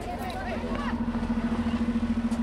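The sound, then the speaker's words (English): A bus engine runs as it prepares to leave the South Central Farm in Los Angeles on Earth Day. A steady low hum grows into a pulsing drone, with voices murmuring underneath. “The bus starts for home.”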